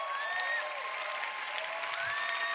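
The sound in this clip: Steady audience clapping welcomes a speaker to share a testimony at City Harvest Church, a continuous, even patter of many hands that runs at a moderate level throughout.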